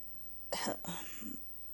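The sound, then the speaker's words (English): A person with a tickle in the throat coughs: two quick, rough bursts close together, fairly faint, with silence before and after. “You heard me coughing”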